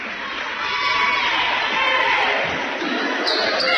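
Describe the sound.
A basketball is dribbled during a girls' school basketball game, with repeated bounces on the court under steady crowd noise and talk.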